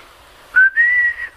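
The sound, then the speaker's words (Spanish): A person whistles a short phrase alone: a brief clipped note, then a longer sustained tone that rises slightly before stopping, followed by a faint short tail. “Mire, si silbo, no me lo tome a mal, es que aprendí y ando feliz, porque no sabía.”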